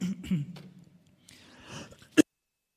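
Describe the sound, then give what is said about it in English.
Throat clearing from a frog in the throat, a low rough rasp that ends in one sharp, short burst before silence. “that's when you don't have enough spit, is you get a frog in the throat.”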